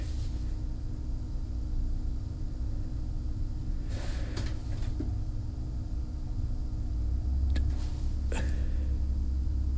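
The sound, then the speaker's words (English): A disc spinning in a disc drive: a steady low hum and whir that holds throughout, with a couple of brief faint clicks or rattles along the way. “Hear the disc spinning.”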